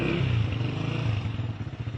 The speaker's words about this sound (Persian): خب بیاید پایین خاموشش کنید، قدم بزنید، موتورتون قفل کنید.